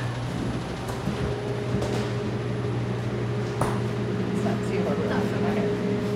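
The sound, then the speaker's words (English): A commercial kitchen range hood fan runs with a steady, even drone and low tonal hum that holds unchanged throughout. “I have to turn on the hood.”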